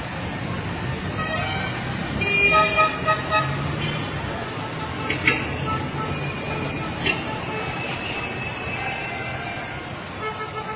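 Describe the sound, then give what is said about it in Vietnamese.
Busy street traffic at dusk, cars and horse-drawn carriages passing, with car horns tooting over a steady rumble of road noise. A few short honks stand out near the start and middle. “đường lên Chí Hòa thiên hạ qua lại dập dìu, xe hơi, xe thổ mộ chạy liên tiếp, tiếng kèn với tiếng chuông nghe không dứt.”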